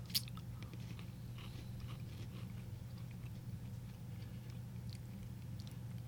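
A crisp snap as a strawberry cream Pocky stick is bitten, then quiet, faint crunchy chewing over a low steady hum.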